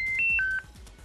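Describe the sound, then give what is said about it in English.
A telephone signals an incoming call with a short run of electronic tones at shifting pitches, lasting about half a second, then a quieter background hum. “Hold on, we got a call. We got a caller. Why do we have a caller?”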